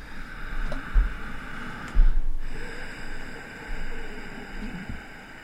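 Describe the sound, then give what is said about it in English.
Ujjayi yoga breathing with a gentle throat constriction: slow, hissing, slightly rasping breaths drawn in and let out in a few long, even cycles, soft and steady over a low background rumble. “it's a gentle constriction of the throat. And Ujjayi means the victory breath.”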